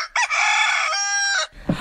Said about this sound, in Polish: To koguta poprosimy.